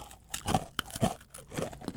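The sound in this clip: Biting into and chewing a pumpkin-flavored candy bunny produces irregular, crisp crunches and wet chewing sounds, fairly faint and close, with several sharp bites scattered through the chewing.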